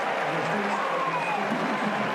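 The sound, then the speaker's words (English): A homecoming crowd cheers at a college football game between West Virginia and Iowa State, a dense, continuous roar that holds at an even level throughout. “So West Virginia, after scoring, gives that lead right back to Iowa State. And the homecoming crowd here, happy with what it sees.”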